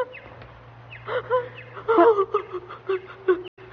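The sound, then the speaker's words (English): A person sobbing: irregular, broken whimpering cries with wavering pitch and catching breaths, over a steady low hum. “What is that? Who's that I hear sobbing? Oh, why are there tears?”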